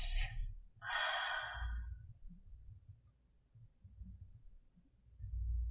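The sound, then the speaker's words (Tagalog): Slow breathing in and out: a soft airy breath, then a longer drawn exhale, followed by quiet with a low rumble beneath. “Muli, hinga papasok at palabas.”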